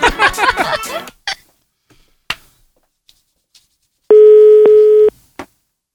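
A telephone ringing tone sounds after some scattered clicks and faint noises: one steady, buzzy mid-pitched tone lasting about a second, loud and clean against near silence.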